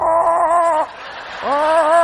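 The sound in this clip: A voice imitates chickens in two drawn-out, warbling clucking calls separated by a brief pause, loud and heard alone.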